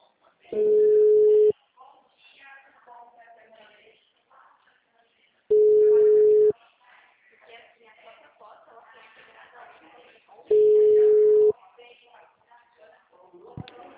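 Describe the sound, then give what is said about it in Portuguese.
A call being forwarded produces three long, steady ringing tones, each about a second long and evenly spaced several seconds apart, with quieter voices and sounds in the gaps between them. “Esta ligação poderá ser gravada. Chamada sendo desviada.”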